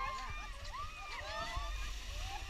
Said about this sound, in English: So that's the fin whale feeding.